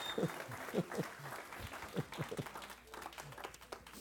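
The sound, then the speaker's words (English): A church audience claps hands together during a sermon, a series of scattered claps and light applause that rises in short bursts over about four seconds, fairly faint throughout. “Would you give the Lord a hand clap and let him know you're here?”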